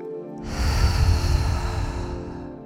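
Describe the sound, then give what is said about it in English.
One deep breath, drawn in through the nose and let out through the mouth during a guided meditation. It is a long, steady, airy rush over a soft sustained background tone. “And now take a deep breath in through your nose and out through your mouth.”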